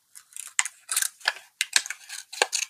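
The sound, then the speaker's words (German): Scissors cut out folded paper raffle tickets in a quick, irregular run of many crisp snips with rustling paper between them. No one speaks. “Okay, ich habe Lose gefalten. Jetzt schneide ich sie aus.”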